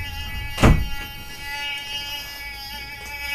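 A single dull thud of a door or screen being shut quickly to keep mosquitoes out, followed by a low steady hum and a faint lighter knock.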